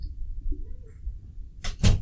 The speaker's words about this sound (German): Warte, mach mal die Tür zu